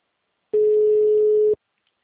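A single steady telephone tone sounds while a call is being placed to someone. It is mid-pitched and unwavering, lasts about one second, and stands alone between stretches of silence.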